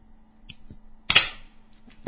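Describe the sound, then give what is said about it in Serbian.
Two coins dug up from the ground clink together in a few sharp, dry metallic clicks, one louder strike standing out among softer taps against near silence. “Našo je, kopao je ovde, našo je dve kovanice, ne bili vam dočarao njegov omiljeni zvuk plaćanja.”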